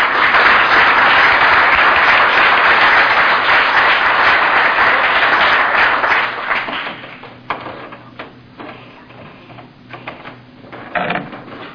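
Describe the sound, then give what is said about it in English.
Loud audience applause welcoming a speaker, a dense steady clapping that fades after about six seconds, leaving a few scattered claps and knocks. “let's give Max a great hand because she is going to have a chance to tell her side of the story”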